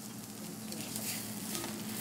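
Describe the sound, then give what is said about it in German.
Soft, steady sizzle of searing in brown butter with fresh thyme and whole garlic cloves, an even crackle of frying that continues throughout with no talk. “Ein bisschen frischen Thymian und ganze Knoblauchzehen dazu. Nur sehr kurz anbraten und wenden.”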